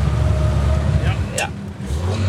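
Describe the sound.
A car engine given too little throttle in second gear during a driving lesson hums low and steady throughout, with a brief higher sweep midway.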